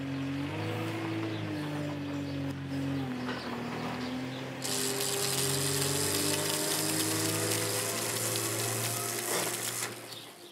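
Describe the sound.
Electric welding of metal on a farm: a loud, dense crackling hiss starts about halfway through and runs steadily to near the end, over a constant low machine hum that is present throughout.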